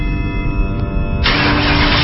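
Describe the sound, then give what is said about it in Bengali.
A car engine cranks but fails to start, giving a short, loud, churning mechanical rumble. Partway through, the sound turns harsher and brighter. No voices are heard. “জানি না, গাড়ি start হচ্ছে না।”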